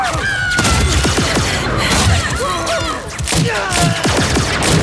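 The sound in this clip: Gunfire in an audio drama firefight: many overlapping shots and thuds form a loud, dense barrage that runs almost without a break.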